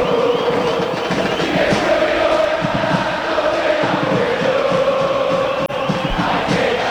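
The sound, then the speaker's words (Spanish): San Lorenzo football supporters chant in an Argentine stadium, a large crowd singing as one dense, continuous mass of voices with a steady rhythmic pulse, loud throughout. “Este es el ambiente. Así está la gente de San Lorenzo alentando al ciclón. Lo sentís. Lo escuchás en Radio La Real.”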